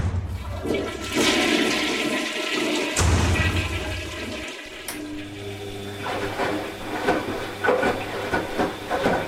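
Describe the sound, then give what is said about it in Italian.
A toilet flushing in a neighbouring apartment: a loud surge of rushing, gurgling water that carries on for several seconds, then settles into hissing and trickling refill. No talk. “lo sciacquone. Quante volte tirano questi sciacquoni?”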